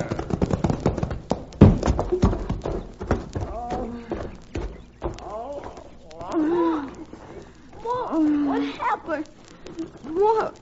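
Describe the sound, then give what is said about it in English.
A team of horses pulling a wagon pounds along a sun-baked road in a rapid, uneven clip-clop of hooves, loud throughout, mixed with voices. “their hooves pounded on the sun-baked road like war-maddened Indians on their drums”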